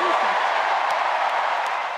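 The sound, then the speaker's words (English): Applause for Michelle Obama fills the Democratic National Convention in Chicago, a dense, unbroken roar of clapping and crowd noise that stays loud and even throughout. “Huge applause for former First Lady Michelle Obama at the Democratic National Convention here in Chicago.”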